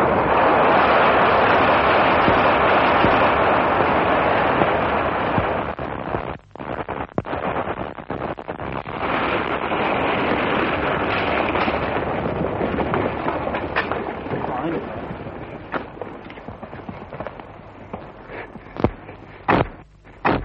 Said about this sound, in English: we've had to wait rather longer than we anticipated for the blowing up of this part of the road because they had to wait till the last of the Greek artillery got through.